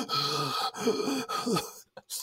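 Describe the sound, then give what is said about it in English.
A voice imitates heavy breathing into a phone by someone with a cold: a few loud, drawn-out breaths with a voiced, groaning tone, each rising and falling, then a short pause and brief fainter puffs of breath. “I know when I have a cold, I call someone and I just heavily breathe into the phone. I'm just like,”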